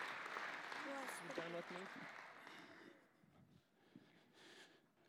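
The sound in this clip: An audience at a Christmas gathering applauds children as they return to sit with their parents. The clapping is faint and stays under a speaking voice for a few seconds, then dies away.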